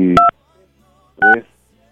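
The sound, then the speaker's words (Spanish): Telephone keypad dialing tones: two short, bright two-tone beeps about a second apart, each crisp and loud, with silence between them. “Va, vamos a marcarle.”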